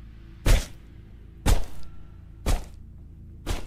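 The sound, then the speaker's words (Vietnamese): Four heavy, dull thuds of a stick striking a leg, spaced about one second apart, with no voices in between. “Một nhát gậy nữa lại giáng xuống. Cẳng chân cảm giác như gãy làm đôi. Những tiếng đập bình bịch vang lên nghe đến rợn cả người.”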